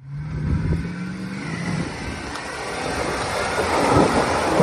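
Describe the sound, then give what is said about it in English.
A well-equipped Land Cruiser 100 series engine labours up a steep off-road trail climb, a low, rough drone with rumbling texture that builds gradually louder over the seconds. “here's that same climb today with a very well-equipped Land Cruiser 100 series trying to make that same climb that Jason was trying to make in the Willys.”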